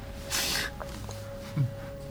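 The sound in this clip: A voice imitating a dolphin during a fantasy role-playing game: a short, breathy blowhole-like burst, then a brief rasping squeak, over a faint steady hum.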